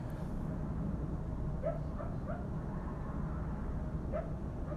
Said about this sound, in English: I'm gonna hope that's a dog and not a wolf.